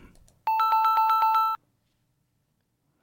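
A telephone rings as a call is placed abroad: a single trilling electronic ring lasting about a second, its rapid pulses clear and steady, then silence.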